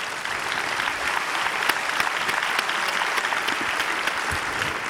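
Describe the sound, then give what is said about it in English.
Audience applause welcoming a couple of guests at a church gathering: a dense, even wash of many hands clapping that holds at a steady level for the full five seconds, with no single voice standing out. “Let's give them a hand.”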